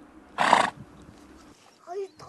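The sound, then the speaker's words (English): A horse whinnies in one short, bright burst amid herders on horseback rounding up animals across a windswept Mongolian plain. Quieter, fainter sounds follow. “Dalantay Khatanbatar and his 7-year-old son canter across the windswept Mongolian plain, rounding up their animals.”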